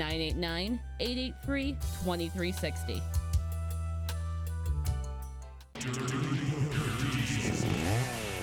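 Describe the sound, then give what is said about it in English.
An EFCO-style chainsaw engine revs in bursts of rising and falling whine with rough buzzing, following a stretch of bright music. “Bring in your chainsaw in any condition, in pieces, damaged, torn apart, and trade it in to get up to $100 off a brand new EFCO chainsaw.”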